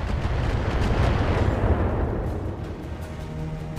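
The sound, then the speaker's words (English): Missiles pounding a mech in a video game: a dense, continuous roar of explosive impacts and rumbling blasts, loud throughout and easing slightly toward the end, with no talking. “Enemy turn. Uh-oh, missiles.”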